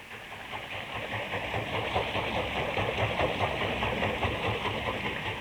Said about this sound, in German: Sein munter fließendes Wasser dreht ein großes, hölzernes Rad. Drinnen im Haus treibt die Achse einen Mühlstein an. Eine Wassermühle.